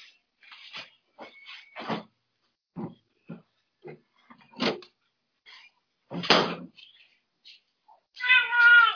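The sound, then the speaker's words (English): A cat utters many short chirping meows and trills separated by brief silences, ending on a longer, clearer tonal meow. “What was that? That was a cat talking.”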